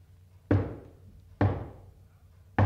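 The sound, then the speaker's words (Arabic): Knocking on a door: three loud, sharp single knocks, spaced unevenly apart, each with a short decaying ring between them. “خبطت عالي وما يفتح حنيشة.”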